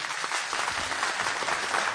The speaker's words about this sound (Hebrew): צורי, איפה מחיאות הכפיים בבקשה?